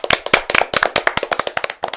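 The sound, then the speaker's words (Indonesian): Children clap their hands after singing a children's song, many quick, crisp claps in a fairly steady rhythm, loud and with no talking. “Kalian telah menyanyikan lagu Cing Ciripit dengan penuh semangat. Tepuk tangan untuk kita semua.”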